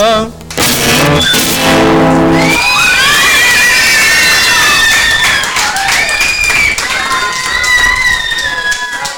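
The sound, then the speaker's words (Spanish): Concert audience applause: loud, dense clapping and cheering with shrill, high screams and whistles rising over it, continuing for several seconds. “Claro, claro. Muchas gracias, pues, por los aplausos.”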